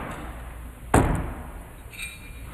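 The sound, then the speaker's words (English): A single sharp metallic clang as two thrown knives strike together in a bullseye during a night knife-throwing competition, a loud crack that rings briefly and then fades. “You can hear the clang as those two knives come together, both in the bullseye.”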